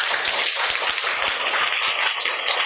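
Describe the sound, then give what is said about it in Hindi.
Schoolchildren clapping for their teacher: a dense, continuous patter of many small hands, steady and loud throughout, almost rain-like in texture. “बच्चे ma'am के लिए ताली बजाओ”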